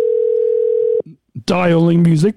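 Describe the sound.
A steady, unbroken telephone dial tone, played as a sound effect, holds one even pitch for about a second. It cuts off and people then talk loudly over one another.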